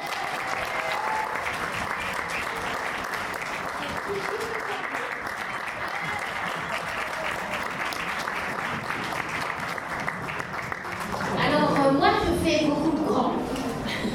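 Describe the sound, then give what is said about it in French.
Audience applause for a speaker at an event: dense, steady clapping that holds for over ten seconds, then swells louder near the end with cheers and voices mixed in. “Patrick Borg, on l'applaudit”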